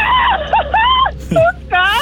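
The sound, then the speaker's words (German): Excited high-pitched screaming comes in several separate bursts of squeals and shrieks, with the pitch swooping up and down between them, loud and without talk. “Ich könnte dir 3 Stunden beim Kreischen zuhören.”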